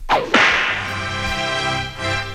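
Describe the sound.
A whip crack sound effect: a quick swishing whoosh followed by a sharp, loud crack, then a sustained tonal ring that lingers to the end.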